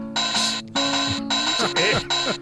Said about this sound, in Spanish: A ver cómo se pone aquí el rock drum. ¿Qué tengo? ¿Doy 94? Sí, eso es.